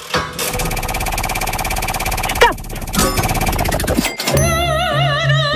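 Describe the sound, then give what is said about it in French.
A prize wheel spins in a radio game, giving off a dense, steady run of rapid clicks blended with loud, sustained musical tones. Warbling electronic notes follow near the end. “on va tourner une roue, et quand vous êtes inspirée, quand vous le sentez, vous me dites stop”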